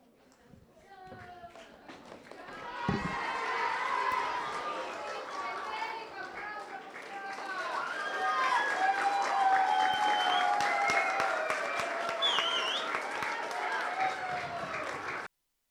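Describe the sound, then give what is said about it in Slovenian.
Audience applause at a translator's meet-and-greet event, with steady clapping for about twelve seconds and many adult and child voices mixed in throughout. “Dajmo še en aplavz za gospo Urško”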